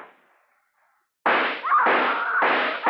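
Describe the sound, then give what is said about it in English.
A few loud, harsh gunshot bursts hit a wall in quick succession after a near-silent lead-in, each blast a broad crack with a short ringing tail, and no voices over them. “Now, there are no more bullets in the gun. Bullets in the wall.”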